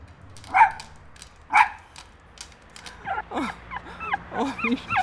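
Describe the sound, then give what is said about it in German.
A dog near a dumpster barks twice in sharp, spaced yaps, then breaks into a rapid run of high, wavering whimpers and yelps. “Da, am Müllcontainer. Ist das tatsächlich dein Hund?”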